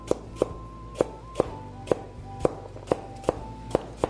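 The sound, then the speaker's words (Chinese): A knife slices washed, unpeeled old ginger in a steady series of sharp, evenly paced chops, each strike a crisp clack. “我们一开始就先把我们的老姜切片，洗干净以后把它切片，不用去皮了啊。”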